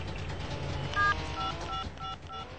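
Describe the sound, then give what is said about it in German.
A phone number being dialed on a keypad produces several short, high, faint touch-tone beeps in quick succession over steady background hiss. “Ich muss sofort Philipp anrufen.”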